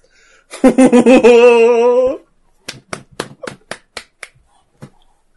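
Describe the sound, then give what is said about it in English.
Several sharp hand claps ring out in an uneven rhythm, following a sustained, wavering vocal cry. “I couldn't help but clap.”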